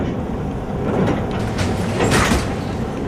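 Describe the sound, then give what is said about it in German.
Suitcases ride a baggage carousel at Frankfurt Airport, a continuous mechanical rumble and rattle with a couple of louder swells as pieces roll past, no voices. “Ein Koffer nach dem anderen fährt langsam auf dem Gepäckband vorbei. Aber der eigene Koffer taucht einfach nicht auf. Das haben hier am Frankfurter Flughafen schon manche erlebt.”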